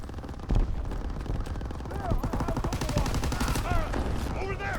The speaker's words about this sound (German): Weg! Schießen halt feucht fröhlich durch das Volk und da kannst du nichts machen.